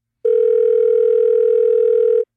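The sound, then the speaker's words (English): A telephone gives a single long electronic ring tone, steady, loud and unbroken for about two seconds, heard alone. “As soon as I put down the receiver, the phone rang again.”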